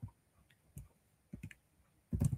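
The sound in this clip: Keystrokes on a computer keyboard: a few sparse, sharp clicks, then a denser burst of quick taps at the end, with no talk.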